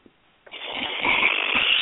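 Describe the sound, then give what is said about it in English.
A person snores loudly, a harsh, raspy rattle that starts abruptly and carries on with low, fluttering throaty pulses, with no talk over it. “What's all that snoring and stuff back in there?”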